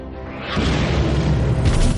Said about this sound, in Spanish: En la periferia se produce una gran explosión.